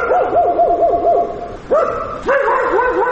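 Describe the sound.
Stray dogs bark and yelp on a city street in Rustavi, Georgia, at dusk: loud, high, wavering cries whose pitch swings rapidly up and down, broken by a few sharper outbursts.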